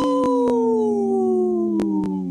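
A wolf howls in one long, loud, unbroken tone with strong harmonics that slowly sinks in pitch, crossed by a few brief, sharp clicks.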